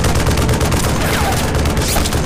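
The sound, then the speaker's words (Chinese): Sustained gunfire during a firefight, with rapid, dense shots blending into a continuous, loud crackling roar that runs without pause from start to finish. “继续射击。”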